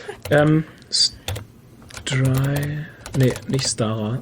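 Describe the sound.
Typing on a computer keyboard while someone looks something up: scattered bursts of sharp key clicks mixed in with a man's talking.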